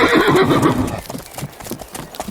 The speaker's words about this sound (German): Vertrau auf dein Pony, das hat eine Menge Erfahrung. So, jetzt steige ich auch noch auf. Und dann reiten wir los.